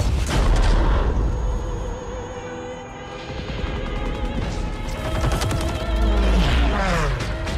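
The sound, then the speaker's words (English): Dense gunfire and booming explosions from a first-person shooter war video game trailer, loud and nearly continuous, with overlapping blasts and rattling shots. “What you're hearing right now is not audio from a new movie directed by Steven Spielberg or starring Tom Hanks, but it's a trailer for a video game, the newest iteration of Call of Duty, a massively popular first-person shooter video game.”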